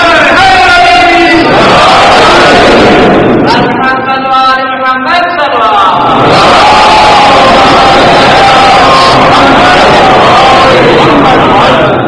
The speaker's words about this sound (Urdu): بھائی نعرہ حیدری آ گیا، اب اس کے سامنے انسان کیا بول سکتا ہے؟